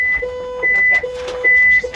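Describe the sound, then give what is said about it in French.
A red alert alarm sounds in a ground replica of the International Space Station in Houston after a power loss, a steady electronic two-tone pattern that alternates between a higher and a lower pitched beep. “Alerte rouge dans la station spatiale internationale ISS, ou plutôt dans sa réplique terrestre de Houston, au Texas. On vient de perdre le courant.”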